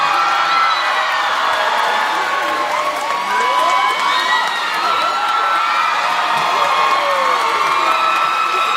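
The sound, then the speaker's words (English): A cheering concert audience of about 1,800 people makes a continuous loud roar of shouts, whoops and screams, mixed with some clapping. “So that's what 1,800 people looks like. Goodness gracious. That's what they sound like, too.”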